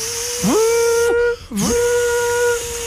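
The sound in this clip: A voice imitates a Minipimer hand blender starting up, a buzzing whine that sweeps upward and holds high, breaks off with a short dip, then climbs back to a sustained loud whine.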